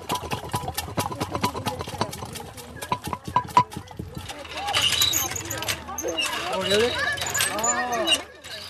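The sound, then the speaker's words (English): Butter being churned by hand with a wooden dasher, a century-old Bay Area sound: a quick, regular run of knocking thumps fills the first half, then gives way to a denser, noisier stretch. “This week, we've been playing you a Bay Area sound that you could have heard more than 100 years ago. And we start moving the stick up and down and up and down, and as we keep going, it turns into butter.”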